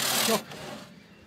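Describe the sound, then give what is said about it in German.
A hand saw cuts through a timber beam of a half-timbered frame, making one loud rasping stroke followed by fainter scraping that fades out. “Die Säge wird neu angesetzt. Das letzte Stück wird von außen durchgeschnitten.”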